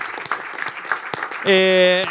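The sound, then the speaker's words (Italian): Audience applause for a prize winner: a dense patter of clapping mixed with a voice, then a steady electronic tone cuts in and holds to the end. “Un applauso per Nauer e il suo doppio gratis, bravo.”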